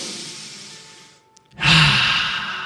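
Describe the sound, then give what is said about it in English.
A person takes a deep breath, heard alone with no talking. There are two long, airy breath sounds split by a brief pause, and the second is louder and rushes in sharply. “Take a deep breath in your house.”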